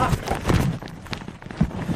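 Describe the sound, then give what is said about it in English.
Scuffling and thumping as a woman struggles and fights while being walked down stairs, with irregular footfalls and bumps in a noisy, muffled mix. “Now, what you hear is her struggling and fighting as they're walking down the stairs.”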